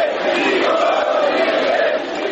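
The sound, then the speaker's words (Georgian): A demonstration crowd of about 20,000 in Chisinau shouts and chants, demanding the resignation of the president and government over a banking scandal. The mass of voices is loud and steady and continues throughout. “გამარჯვება, გადადექით, ეს შეძახილები ისმის მანიფესტაციაზე.”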